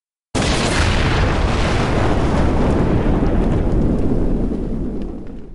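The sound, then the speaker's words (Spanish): A powerful explosion aboard a ship bursts in abruptly after a brief silence, then becomes a long, loud, roaring rumble that slowly fades toward the end. “una potentísima explosión sacudió todo el barco.”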